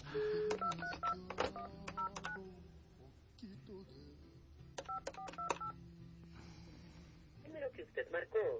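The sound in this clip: A telephone number is dialed on a keypad: clusters of short, bright dual-tone beeps come in two rapid bursts separated by a pause, with people talking and a softer tonal signal at the end.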